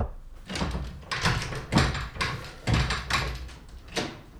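A cupboard door being opened to let out a man shut inside a small cupboard, heard as a series of dull thumps and rattles in irregular succession, moderately loud, with no talk over them.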